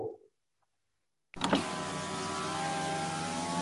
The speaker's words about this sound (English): It's a car window. So, not a dog, but it's the car window, the electric window.